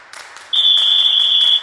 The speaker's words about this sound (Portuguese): Roda a vinheta.